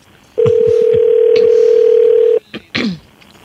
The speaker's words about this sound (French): On va appeler.